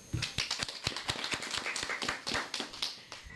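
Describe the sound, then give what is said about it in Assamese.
Group hand clapping after children sing a song together: many quick, irregular claps forming a fast, steady patter at a fairly faint level. “আমি সকলোৱে মিলিজুলি এতিয়া হাত চাপৰি দিওঁ আহাচোন।”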